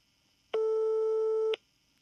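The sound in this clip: A telephone call goes unanswered: one steady electronic ring tone sounds alone for about a second, then stops.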